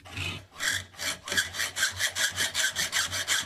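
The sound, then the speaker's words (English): A hacksaw cuts a new slot across a screw head, making a rhythmic back-and-forth rasping. The strokes start slower, then quicken into a steady run of short, bright, scraping passes. “Use your hacksaw to cut a new slot at a right angle to the old one.”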